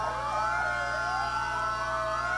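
A fire department command vehicle's siren wails at a parade in Dimmitt, Texas, its tone sweeping up and down in a continuous, loud cycle over steady low engine rumble.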